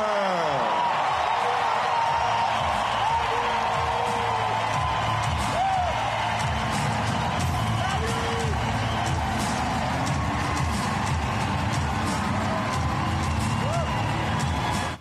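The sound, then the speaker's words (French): Loud, sustained ovation for Roger Federer at a tennis team presentation: dense cheering with whoops and whistles that hold steady for the whole stretch without a pause. “Mais simplement, regardez l'ovation pour Roger Federer au moment de la présentation des équipes tout à l'heure.”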